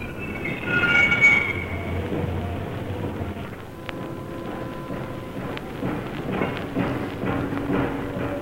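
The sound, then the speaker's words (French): Railway wagons roll out of a ferry's hold onto the quay in the rain, giving a continuous heavy rumble with clanks and scattered high-pitched wheel squeals. “Le navire est maintenant à quai. Et les premiers wagons sortent de cale.”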